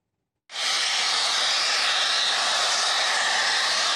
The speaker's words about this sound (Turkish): Borudan basınçlı şekilde çıkan gaz metrelerce yükselirken yoğun ses nedeniyle ekipler kulaklarını kapatmak zorunda kaldı.